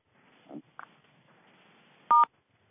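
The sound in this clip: Electronic keypad tones from a conference call line as every caller is muted: a soft low blip, a short higher blip, then one loud, steady dual-tone beep near the end, with quiet line hiss between.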